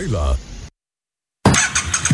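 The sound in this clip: A motorcycle engine starts up with a loud burst after a short silence, then runs with a rough, revving growl.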